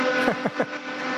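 A truck driver's horn honks, a sustained, steady tone with strong harmonics that sounds across the whole clip, broken by a few short falling warbles near the start.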